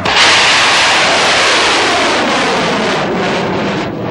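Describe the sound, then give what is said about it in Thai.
Loud roaring rush of large bung fai rockets launched one after another into the sky at a rain-calling rocket festival, a dense, steady hiss-and-roar that fills the whole stretch without pause and eases slightly near the end, with no voices. “บั้งไฟหมื่นบ้างไฟแสนลำแล้วลำเล่าถูกจุดขึ้นสู่ท้องฟ้าเพื่อร้องเตือนพญาแถนให้บันดาลฝนลงมายังโลกมนุษย”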